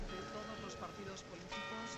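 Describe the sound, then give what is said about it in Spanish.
Clock tower and church bells peal across central Madrid at the Puerta del Sol, a dense layer of sustained ringing tones mixed under voices. “Y siguen repicando esas campanas del reloj de la Puerta del Sol y en todas las iglesias de la región.”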